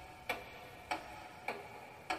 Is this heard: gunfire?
no